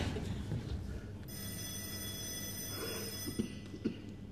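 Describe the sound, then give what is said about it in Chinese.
A telephone rings with one sustained, bright metallic bell trill in the middle, fairly faint, followed by a few soft knocks. “耳朵聋了？接电话。”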